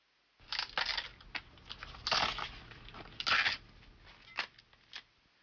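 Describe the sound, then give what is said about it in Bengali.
Washed lettuce being torn by hand into bite-size pieces for raw vegetables served with chicken. Many crisp, crinkly snaps and rustles come in uneven bursts, fairly quiet throughout. “Lettuce ধুয়ে নিন এবং একবারে খাওয়া যায় এমন আকারে টুকরো করে ছিঁড়ে নিন।”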